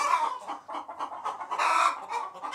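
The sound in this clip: A hen clucks on her nest in a steady run of many quick, chattering clucks with no pause, fairly loud throughout.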